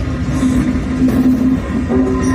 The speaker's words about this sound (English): Well, they look like a train and sound like a train,